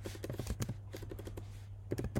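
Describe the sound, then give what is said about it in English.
Typing on a computer keyboard: many quick, irregular clicks in two bursts with a brief lull between them, fairly faint over a steady low hum. “If that me typing there is really, really loud, I'm sorry.”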